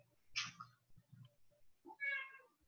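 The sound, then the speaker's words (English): A pet male cat meows twice, quietly, with a pause between the two calls and soft low murmurs in the background. “Aw, kitty. He's a good boy.”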